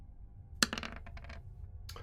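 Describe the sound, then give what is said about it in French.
Six-sided die rolled during a tabletop role-playing game, a sharp hard hit followed by a quick rattle of small clicks, then one more click near the end, faint. “On va faire un petit jet de chance. On va tirer un de 6.”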